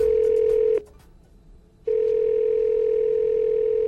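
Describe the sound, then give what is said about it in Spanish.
A steady, unwavering telephone tone on an incoming call-in line to a radio show cuts off for about a second, then resumes at the same loud, even pitch. “Hola. ¿Quién me está llamando? Alguien me llamó.”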